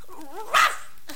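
A puppy gives one short, bright, high-pitched bark.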